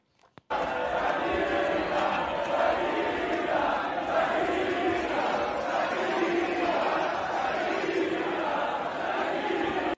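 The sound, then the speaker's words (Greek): A crowd at a Kings League event boos and jeers Piqué on stage, a loud, dense roar of many voices that starts abruptly and keeps up steadily to the end. “Ανέβηκε πάνω στην πίστα να πει δύο κουβέντε κτλ. κτλ. Και αποδοκιμάστηκε από το κοινό που ήταν από κάτω.”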